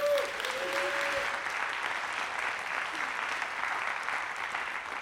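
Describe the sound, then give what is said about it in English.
An audience applauds to welcome a speaker to the stage at a church gathering. The steady, dense clapping holds at an even level for the full five seconds. “Come on, give him a warm welcome, Greg Atchley.”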